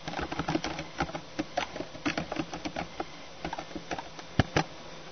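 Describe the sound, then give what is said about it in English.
Typing on a computer keyboard produces many light, irregular keystroke clicks in uneven bursts, fairly quiet and without voices. “Teaching for doctrine and commandments is a passage I'm looking for. Teaching. Can't type.”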